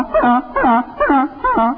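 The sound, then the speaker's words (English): A voice imitates lost, confused geese on a stormy, windy night: four wavering, moaning honks in a steady rhythm, each sliding down in pitch at its end. “he started hearing a sound outside his window. Kind of like,”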